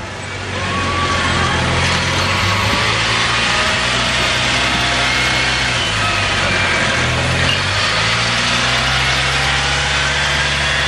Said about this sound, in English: I'm commenting there about the all-terrain golf van that they bring with them now